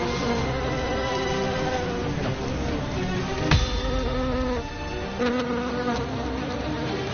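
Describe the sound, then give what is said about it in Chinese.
Wild bees buzz around their hive as it is smoked out, a dense, steady, droning hum that holds without a break through the whole stretch, with a few sharp short knocks breaking in partway. “张大哥决定用烟熏的方法将野蜂熏离蜂巢，再进行采集。”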